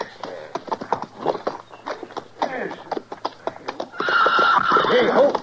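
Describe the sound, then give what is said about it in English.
A horse neighs and stamps, with hoof thumps and shuffling throughout, then a loud, wavering whinny rises toward the end. “Hold on to that brute of yours, Steed. He tried to savage me.”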